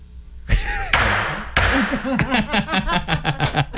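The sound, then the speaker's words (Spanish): A small stick struck like a gavel to declare a case closed: three hard, separate thuds, followed by music that starts up with a rhythmic pulse. “Y mira, caso cerrado. Así va a sonar el bastoncito, chécate. Chécate nomás. Ahí va.”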